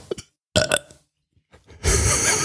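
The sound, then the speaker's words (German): A loud, deep belch produced on command, one long rough burp at the end after a few short, sharp vocal bursts and a brief silence. “Auf Kommando kann ich rülpsen”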